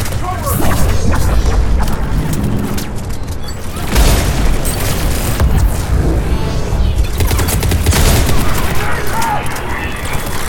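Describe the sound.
Sniper gunfire in a video game firefight against husks: many sharp shots and heavy booms crack in quick, uneven succession, with voices shouting over the loud, continuous battle.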